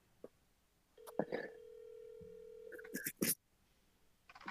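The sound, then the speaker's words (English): Ringback tone of an outgoing phone call left ringing: one steady electronic tone holds for about two seconds, a lower tone joins partway through, and brief clicks come before and after. “We're calling Jacob and seeing if he'll answer.”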